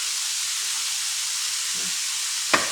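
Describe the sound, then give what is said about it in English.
Shaved steak seasoned with onion powder, pepper and salt fries in a pan, giving a steady, even high-pitched sizzling hiss, with a brief clatter near the end. “Now shaved steak, which I got, cooks up pretty quick.”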